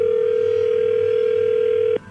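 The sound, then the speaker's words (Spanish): A telephone dial tone plays while a number is dialed again: one loud, steady, unbroken pitch that cuts off abruptly near the end. “A ver, permíteme, vamos a marcarle de nuevo y tú le contestas.”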